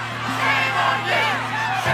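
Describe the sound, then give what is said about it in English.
Women mourning the death of Sarah Everard at a vigil are cleared away by police, a crowd shouting and calling out together over a low steady hum. “That's women who gathered to mourn for the death of Sarah Everard and found themselves being cleared away by police, who said it was an illegal demonstration just 2 years ago.”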